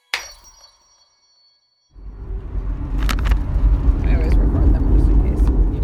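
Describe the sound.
A car crosses a border patrol checkpoint in Arizona. Near silence with a few faint tones gives way after about two seconds to a steady, loud, low rumble of road and engine noise with a few light clinks.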